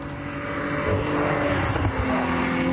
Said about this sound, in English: BMW Alpina. Mm. Yeah, quite a nice little car, isn't very it?